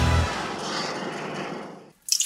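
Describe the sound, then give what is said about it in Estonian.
A dripping kitchen faucet gives a soft, steady watery hiss for about two seconds, then a brief silence and a single bright, sharp drip at the end. “Ma tilgun! Kurdab köögikraan. Ma lausa nirisen.”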